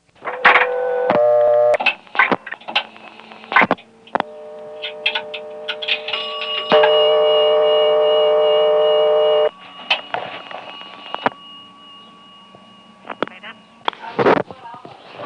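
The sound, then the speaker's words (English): Telephone dialing through a payphone to reach the operator: clicks and short tone bursts, then a long steady tone, with people talking throughout. “I have a tape of dialing my own 447 number through it, dialing the operator”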